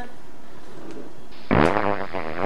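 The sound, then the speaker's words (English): A long, buzzy fart starts midway and sputters on for about a second, loud and rasping over steady background noise. “I guess if I ever really get hard up for money, I can just fart on things for money.”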